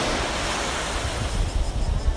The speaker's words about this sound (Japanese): 砂浜がものすごい広くてすごい綺麗な海でですね、明け方に来たら人もほとんどいなくて